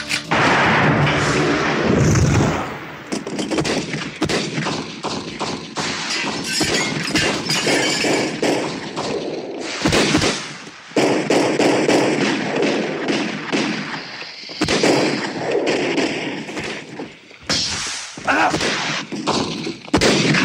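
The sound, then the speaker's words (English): A shootout as state troopers fire shotguns into a rented mobile home in the middle of nowhere: many loud, overlapping blasts, thuds and breaking crashes form a nearly continuous din with only brief gaps. “they are besieged by state troopers with shotguns, resulting in, of course, a shootout”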